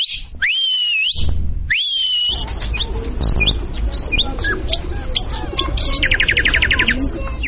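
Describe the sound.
Whistling at Kabul zoo, with two sweeping whistled tones near the start followed by many busy bird chirps and calls over steady background noise.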